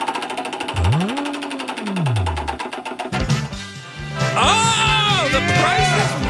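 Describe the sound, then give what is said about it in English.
A game wheel is spun, giving rapid, even ticking for about two and a half seconds, with other tones and sounds following after the ticking stops. “Let's give the wheel a spin, find out what we're playing today.”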